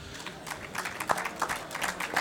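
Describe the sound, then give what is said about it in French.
Scattered applause from the audience at a live music night before a bass player's last set, with single claps standing out irregularly from a sparse, uneven patter rather than a dense wash. “merci d'applaudir pour ce dernier live ce soir, Stracho.”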